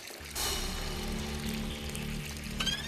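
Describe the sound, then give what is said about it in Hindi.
Water running from a household tap that was turned back on: a steady rushing flow starts abruptly after a brief quiet moment and continues evenly, fairly faint, over a low steady hum. “अभी आपने नल बंद किया था ना? हाँ। तो वापस कैसे चालू हो गया?”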